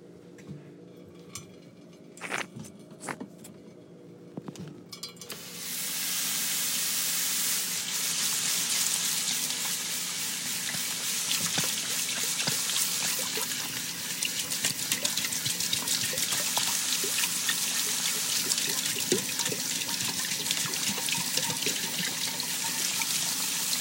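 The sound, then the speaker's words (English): Hands washed under running tap water: a few soft clicks and knocks first, then the faucet comes on in a steady, even gush with small irregular splashes continuing to the end. “First things first, gotta wash hands.”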